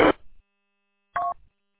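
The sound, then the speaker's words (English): Telephone dialing tones from a phone being dialed, two short electronic beeps separated by about a second of silence, the second slightly longer and clearly pitched. “I mean, I can dial it up and see if I can hear it.”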